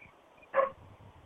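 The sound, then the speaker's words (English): A single short, sharp yip rises from a pack of about ten coyotes in the distance. Apart from that brief call, everything else is quiet. “We're going to have a bark fest now. Looks like keep the dogs from coming out here. There's about 10 coyotes over in the distance.”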